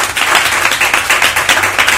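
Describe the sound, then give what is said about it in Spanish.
Brisk applause for a guest, loud and close. The clapping is beaten in quick, even pulses, giving a steady rhythmic pattern for about two seconds. “¡Aplauso para Carlos, por favor!”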